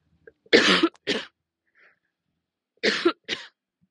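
Coughing from an irritated throat: two pairs of harsh, raspy coughs, each a strong burst followed by a shorter one, separated by a pause of near silence.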